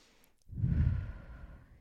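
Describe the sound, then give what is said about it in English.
A deep breath, heard mainly as one long, full exhale that swells suddenly and then fades over about a second, breathy and low, with no talking. “Deep breath in, everyone. You better be doing it. Who's mugging me off and not doing it? Let's do that again.”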